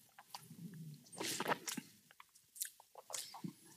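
Chewing and crunching while tasting food with a subtle coconut aroma, made up of faint, irregular crisp bites and mouth noises with no talk over them.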